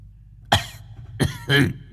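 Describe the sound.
An old man coughing harshly right after drawing on a cigarette: three rough, throaty bursts, the last one longer and heavier, with no talking.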